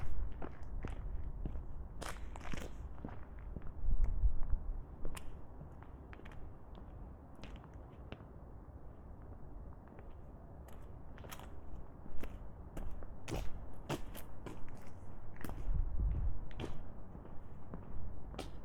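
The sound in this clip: Footsteps of a walk outdoors on a roundabout stroll outside a mansion, with many steady steps and irregular louder thuds over a low rumble of background noise.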